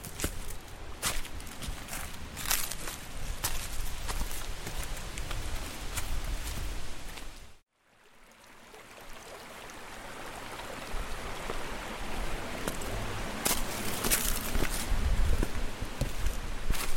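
Footsteps of people hiking on a trail, a continuous run of many crunching, scuffing steps at a steady walking pace, broken by a short silent gap partway through before resuming.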